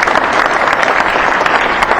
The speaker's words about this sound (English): So if we can put our hands together and welcome Larry, and I'm sure you guys will enjoy it very much.